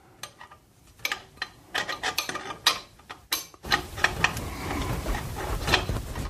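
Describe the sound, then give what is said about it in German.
A wrench works the thread of a faucet with the knob pulled off, giving irregular metallic scrapes and clicks in short bursts. These turn into a denser, steadier grinding rasp, all fairly quiet. “Und jetzt gehe ich mit dem Schraubenschlüssel an das Gewinde und versuche es aufzudrehen.”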